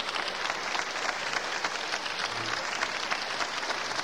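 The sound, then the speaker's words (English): Audience applause at a classical concert calls the conductor and soloists back for another appearance: dense, even clapping that holds steady throughout, with no voices. “The audience is asking for another appearance by the conductor and soloists.”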